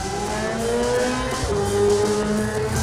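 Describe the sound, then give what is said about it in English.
A Yamaha R6 motorcycle pulls away from the start of the Senior Manx Grand Prix road race, its engine screaming loudly as the pitch climbs, dips briefly at a gear change, then climbs again. “The Yamaha R6 in 5 seconds, 4, 3, 2, 1. The tap on the shoulder and the Milk Race Group Senior Manx Grand Prix 3 laps is away.”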